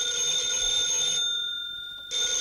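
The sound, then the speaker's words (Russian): A telephone bell rings with a steady, high, bright tone, stops for about a second, then starts ringing again; no voices are heard over it. “Опять. Мы еще не выполнили те заявки, а уже видно, к нам звонят с новыми.”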